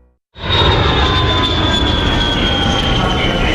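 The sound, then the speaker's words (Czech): A jet airplane roars as it departs from Václav Havel Airport Prague. After a brief silence, a loud, steady engine roar begins suddenly and holds to the end, with a high whine running over it. “Poletíte z letiště Václava Havla Praha?”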